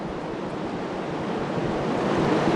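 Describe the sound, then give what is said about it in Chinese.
A tidal bore surges up a river toward a dam wall as a dense, steady roar of rushing water. The broad hiss of churning surf grows slightly louder toward the end, with no voices. “那此时此刻我们可以看到潮水依然是保持着万马奔腾的气势，在逐渐地向我们的坝身推进。”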